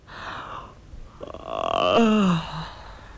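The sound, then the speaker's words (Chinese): A storyteller's voice imitates a yawn: a drawn-out, open-mouthed vocal sound that swells and then sinks in pitch before fading into a short, low tail. “这酒杯还没到嘴呢，张都监打了个哈欠，”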